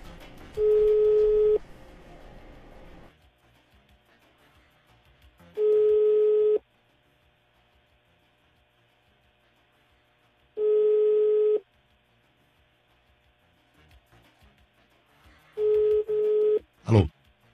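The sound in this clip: A telephone rings unanswered, four ring bursts of about a second each, spaced roughly five seconds apart, each a steady buzzing mid-pitched tone with quiet line hiss between them and a brief click at the end.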